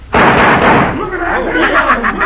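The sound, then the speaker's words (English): A loud gunshot fired at a poker chip in a western film scene, one sharp blast at the start followed by a long ringing decay, with a voice audible toward the end. “All right, so you put the chip on the back of your hand and you're going to shoot it before it hits the floor like I did.”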